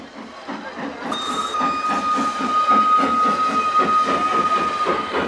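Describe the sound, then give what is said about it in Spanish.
A train pulls into a station crowded with waiting people, with rhythmic chugging beneath a steady hiss of steam and a long high whistle that begins about a second in and holds to the end. “El tren se detiene entre la gente.”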